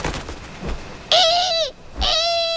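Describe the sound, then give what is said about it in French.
A barn owl gives two loud, drawn-out calls, each about half a second long, with a short pause between them. Faint low rustles come before the calls. “La chouette effraie déploie ses ailes de plus d'un mètre d'envergure et pousse sur ses pattes pour prendre son envol.”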